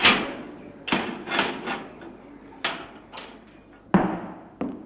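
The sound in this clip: A door opens amid a series of sharp wooden clunks and knocks, spaced irregularly with soft decaying tails, each fairly loud against a quiet background.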